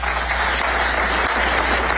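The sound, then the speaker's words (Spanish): An audience applauds Donald Trump after his remarks that Iran would be defeated soon. The clapping is loud, dense and continuous, with a low steady hum underneath. “El presidente estadounidense Donald Trump recibía esos aplausos por reiterar que Irán sería derrotada pronto, muy pronto, apostillaba.”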